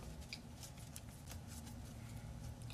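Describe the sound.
Tarot cards being shuffled by hand give a faint, steady papery riffle and flutter. Small soft ticks repeat throughout, with no speech over them.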